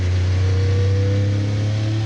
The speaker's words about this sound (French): Là, faut faire super gaffe à l'accélération à la sortie du 180. Parce que c'est un virage en appui, il y a 800 chevaux à gérer.